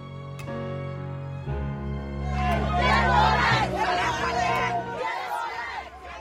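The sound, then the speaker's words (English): Protesters in the Gambia shouting and chanting together for the release of an opposition youth leader, the crowd noise swelling into a loud roar of overlapping voices and cries before easing slightly. “Hear that? That's the sound of protesters in the Gambia demanding the release of Ibrahima Solo Sandeg, the youth head of the main opposition party, dead or alive.”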